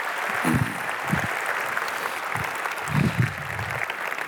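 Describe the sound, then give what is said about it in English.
An audience welcomes a speaker to the stage at Northview with warm, steady applause, many hands clapping throughout, with a few low thumps and murmurs under it. “So, would you please give Dave Stone a warm Northview welcome?”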